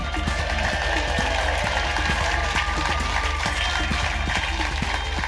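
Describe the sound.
An audience at the Leicester Square Theatre applauds a comedian onto the stage, with dense, continuous clapping that stays loud and even throughout.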